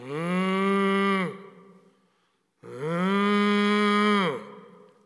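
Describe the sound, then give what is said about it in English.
A voice imitates cows lowing with two long, drawn-out moos separated by a short pause. Each is loud and rich in tone and dips in pitch as it trails off. “Lowing as they went. Meaning, they weren't even happy about it. The cows were like,”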